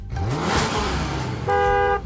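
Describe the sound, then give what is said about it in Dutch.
A car horn gives one steady, bright honk lasting about half a second, following a stretch of rushing motor noise. “Een auto.”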